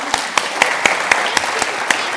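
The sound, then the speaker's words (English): Audience applause for quiz contestants at a church service, heard as steady, evenly spaced claps in a regular beat, sharp and moderately loud over a light wash of background noise. “A final round of applause for our contestants.”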